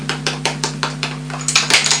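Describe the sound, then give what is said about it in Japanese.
A knife cutting food on a plate, with a fork also in use: many short, evenly spaced clinks and scrapes in a steady rhythm over a continuous low hum. “ナイフは右手。わかる？ こうやって 、そうそう。はい。で、こうやって切るんでしょ。”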